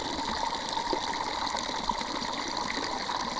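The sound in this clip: A water jet captured by a microphone submerged in the water, a continuous, dense rushing hiss with a muffled, filtered quality, steady and fairly loud, with no voices.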